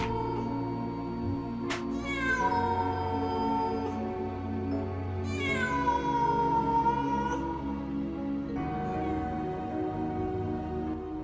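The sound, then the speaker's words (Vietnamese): A cat meowing, three long drawn-out meows spaced a few seconds apart that slide down in pitch, over a low steady hum. “Trong không gian, duy nhất còn tiếng mèo kêu.”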